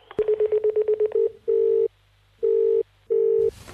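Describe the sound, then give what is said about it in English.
Touch tones sound as a telephone extension is dialled: a quick run of short, evenly spaced beeps, then three longer steady tones, loud and alone, ending in a brief burst of noise. “For Ardmore Extra Agency, dial 8.”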